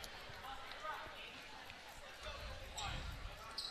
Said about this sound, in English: will dribble it down the court